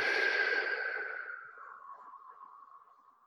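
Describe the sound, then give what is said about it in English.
A long exhale through slightly pursed lips, with a breathy rush and a thin whistling tone. It starts loud and fades steadily over about three seconds, with no talk. “And I'll get you to breathe out through your mouth using slightly pursed lips. So it makes a little sound like this.”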